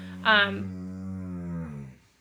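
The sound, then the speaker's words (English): A dog giving one sustained, low, droning growl-like groan that starts with a brighter burst and holds steady for under two seconds before fading out. “That's my dog.”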